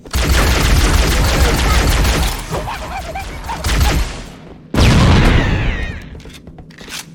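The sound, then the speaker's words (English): Video game grenade explosion: a sudden loud blast near the end that decays over about two seconds, preceded by rapid bursts of gunfire. “Oh. Grenaded him.”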